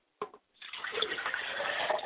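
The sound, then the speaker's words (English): Liquid poured out as a libation: a short splash, then a steady, continuous splashing stream running to the end. “I pour libations to the north, and I say Ashe. I pour libations to the south, and I say Ashe.”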